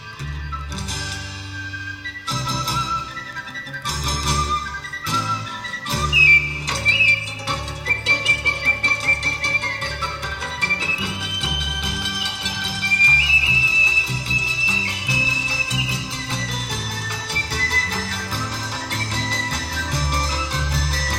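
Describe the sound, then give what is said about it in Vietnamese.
A flute playing a thin, high, whistling melody that rises and falls over a musical backing of plucked and percussive notes, sustained through most of the passage. “bỗng cô nghe có tiếng sáo véo von, lúc trầm lúc bổng văng vẳng bên tai.”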